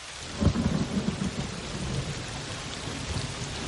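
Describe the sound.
Rain falling at night on a meadow in a valley edged by gentle hills and trees, a steady hiss of drops with a low rumble of thunder near the start.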